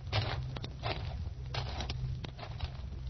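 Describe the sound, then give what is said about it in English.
Footsteps crunch slowly along a gravel path toward a bench. Unhurried, irregular scraping treads sound over a steady low hum. “And now you turn and half stumble out of the room. Walk slowly down the gravel path to a bench in the sun.”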